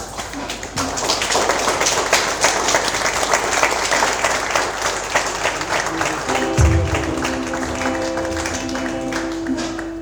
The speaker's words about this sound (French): Pour finir, je vous prie de vous lever et d'acclamer très fort Louis-Marie Nyabesoa.